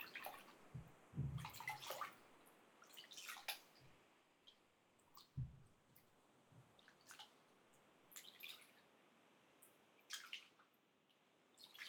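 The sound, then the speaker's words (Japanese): Scrub and loosened dead skin being rinsed off hands with water: several faint bursts of splashing and trickling, separated by quiet stretches with soft drips. “スクラブと落ちた角質を洗い流します。”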